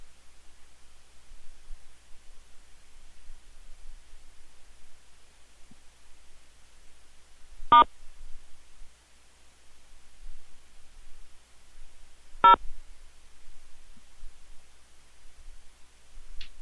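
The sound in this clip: Telephone keypad tones during a call to an automated phone system: two brief, clipped beeps about five seconds apart stand out against faint hiss and near silence.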